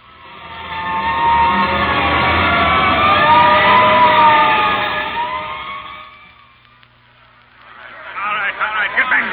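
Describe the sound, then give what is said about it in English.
Fire engine siren from a hook and ladder truck wails loudly and steadily, its tone wavering up and down for about six seconds before fading, followed by a brief burst of a different, busier sound. “Hurry up, and maybe they'll let you ride on the hook and ladder.”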